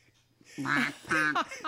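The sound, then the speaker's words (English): A voice imitates a goose honking, making a couple of quick, nasal honks in close succession. The sound is short and fairly faint. “Honk, honk. And you can show them your Grey Goose.”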